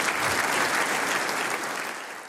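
Audience applause at a concert event, a dense, loud, steady clapping that holds evenly and then tapers off slightly at the end, with no voices over it.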